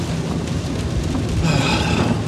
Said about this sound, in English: Oh, man, I hope I don't hydroplane. God, it's raining out.